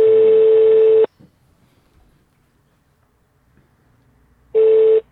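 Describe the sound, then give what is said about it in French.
A telephone ringing tone sounds while a call is being placed: two loud, steady, mid-pitched beeps, each about a second long, separated by a long near-silent gap. “On n'a pas la tonalité? Ou ça va arriver? Attends, ça marque appel en cours.”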